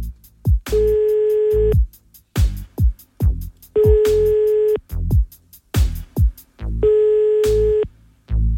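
A telephone ringback tone while a call is placed: three steady, mid-pitched tones of about a second each, evenly spaced, with sharp rhythmic thumps between them.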